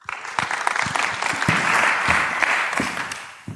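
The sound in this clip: An audience applauds to welcome a reverend to the stage. A few sharp individual claps stand out over dense clapping that swells in the middle and tapers off at the end.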